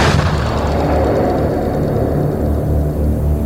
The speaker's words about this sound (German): Plötzlich schoss auf dem Parkplatz neben dem grünen Baum eine riesige Stichflamme empor. Dann folgte ein gewaltiger Knall.